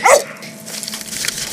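A dog barks once, loud and sharp at the very start, then the sound trails off into quieter, softer noises for the rest of the moment.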